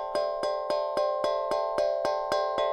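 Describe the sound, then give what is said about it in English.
A small hand drum is struck in the center so all its notes sound at once. Ten evenly spaced, bright metallic strikes ring in a steady, moderately quiet pulse, each one rich in overtones. “If you play it right in the center of the drum, you're not actually hitting an individual note. You're hitting kind of all of them at the same time, which sounds like this.”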